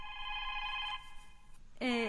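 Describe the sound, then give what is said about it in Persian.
A telephone ringing in a radio studio gives a steady electronic ring with bright, buzzy overtones for about a second. It then cuts off, and a voice follows briefly. “که ما تلفن برنامه را جواب بتم؟”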